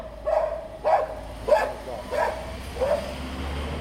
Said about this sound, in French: Ah, c'est le chien, il était dehors, hein. C'est le chien.